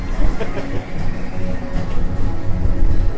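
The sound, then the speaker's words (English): A passing train makes a continuous heavy rumble with a rough, clattering texture that holds steady and loud throughout. “I see the light. It's a train!”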